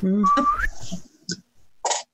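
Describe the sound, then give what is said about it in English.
A person whistles a short, clear tone that glides upward. It is followed by a couple of brief, breathy bursts and then quiet. “I can't whistle, but he can.”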